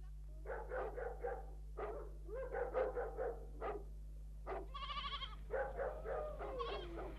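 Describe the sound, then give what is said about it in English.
Sheep bleat in a few clustered bursts of wavering calls over a steady low hum, with no talking. “He told me to bring the sheep over the side, and here they are.”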